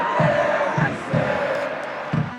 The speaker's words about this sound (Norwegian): Og publikum står igjen på stadion. De kommer til å være her en stund for å hylle sine vinnere.